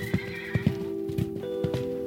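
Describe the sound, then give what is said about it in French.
A horse whinnies and gallops flat out, urged straight ahead by its rider. A high, drawn-out neigh rings over a run of heavy, uneven hoof beats that keep a driving rhythm to the end. “« Au galop, droit devant !» ordonne Alexandre en serrant fort les talons. Bucéphale obéit et galope à perdre haleine.”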